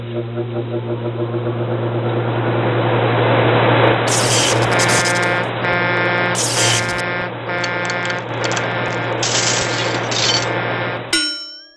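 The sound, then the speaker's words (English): Sound effect of a giant prediction machine firing up: a steady, loud low hum overlaid with bursts of bright metallic clanging and ringing tones that switch on and off, ending in an abrupt cutoff. “The giant prediction machine is a thing. Just so you all know, I'll bring it in here and I'll fire it up right now.”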